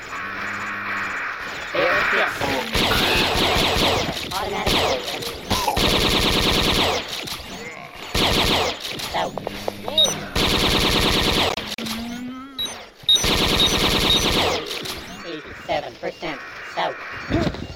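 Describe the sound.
Gunfire from a manual bolt-action gun in a video game: loud bursts of shots repeat many times, with a voice speaking between and over them.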